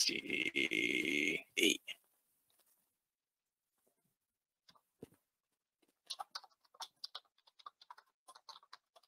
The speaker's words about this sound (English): Okay, let me see how many typos I have on that. Okay, I think I typed it all in correctly.